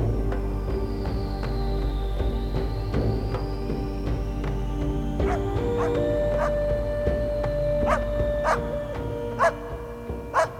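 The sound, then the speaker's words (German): Dog barking at night in the south: many short, sharp barks come at irregular intervals over a steady low background hum. They grow more distinct and punchy toward the end. “Jedenfalls bellt der Hund jede Nacht, ohne Pause.”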